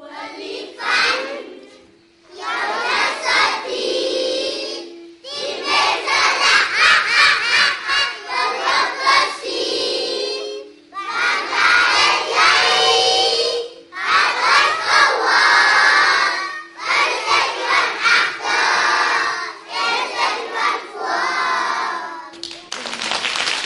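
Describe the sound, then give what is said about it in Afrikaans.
Pre-primary school children sing welcome songs together in a loud, bright chorus, with brief pauses between phrases. “ons kinders gaan nou vir julle liedjies sing om vir julle welkom te heet by RSG.”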